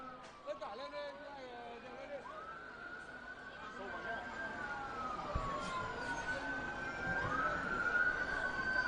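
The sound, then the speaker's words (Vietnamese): Sirens wail with a rising and falling pitch as a VIP security motorcade of police and special-forces vehicles moves during a security drill. The sirens stay faint, and voices talk over them. “Đúng 7 giờ 50 phút, đoàn xe bảo vệ VIP di chuyển đến địa điểm tổ chức sự kiện. Đoàn xe gồm xe của lực lượng đặc nhiệm, xe của VIP, xe an ninh 1, xe an ninh 2 và xe của lực lượng đặc nhiệm khóa đuôi.”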